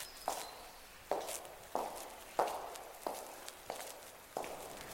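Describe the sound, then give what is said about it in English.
Footsteps walk alone down an empty palace corridor between the court and the service wing. There are seven evenly spaced, moderately loud steps, each a sharp tap with a short ringing tail, at a slow, steady pace. “I'm walking down an empty corridor.”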